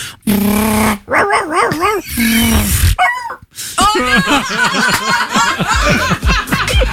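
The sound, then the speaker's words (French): A human voice imitates a dog being run over by a car, with loud yelps, wavering whines and pained barks in quick bursts, and laughter mixed in. “ce que j'adore faire, c'est le chien qui se fait écraser par la voiture.”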